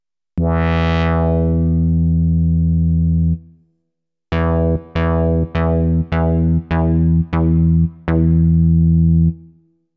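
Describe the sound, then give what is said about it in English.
An analog synthesizer's envelope generator drives its filter. One long sustained note brightens sharply and then mellows, and after a pause comes a run of short, plucky repeated notes ending on a longer held tone. “So what happens if you use the same envelope generator to control the filter? That results in these really classic synthesizer sounds.”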